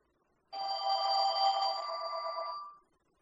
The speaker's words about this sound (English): somebody's phone is ringing.